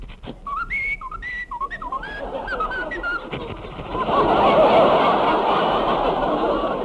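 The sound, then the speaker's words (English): Short, chirpy whistled notes, a few quick rising and falling phrases meant as a dog whistling, followed by a broad, sustained swell of crowd noise. “That dog whistled”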